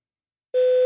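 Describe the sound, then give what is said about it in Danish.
A single answering machine beep: a clean, steady electronic tone that starts abruptly after a moment of silence and holds until the end. “Læg en besked efter tonen.”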